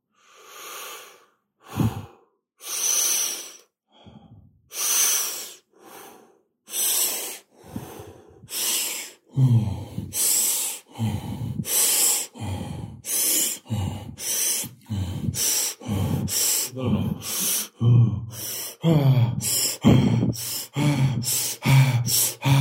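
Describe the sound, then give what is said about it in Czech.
Open-mouthed breathing during a guided breathing exercise. Breathy inhales and exhales come slowly and are spaced apart at first, then grow faster and more rhythmic, with many strong, airy breaths in quick succession. “A v něm dýcháme otevřenými ústy. Začněte dýchat ústy. A dýcháte, jako byste sáli šťávu života.”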